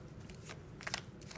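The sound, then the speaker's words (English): A tarot card is pulled from the deck, giving a few soft, brief papery swishes and scrapes. They are faint and occur alone, with no talking. “Let's pull one more card here.”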